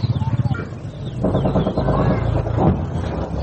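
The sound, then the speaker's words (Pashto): Birds calling among green trees, including chicken-like clucking: a rapid pulsing call opens, then a denser, overlapping chorus of calls continues over steady background noise. “د شنو ونو له منځه د مرغانو د ژغ سره د جګړې د چاودونو او ګزو ژغونو هم پورته کېږي.”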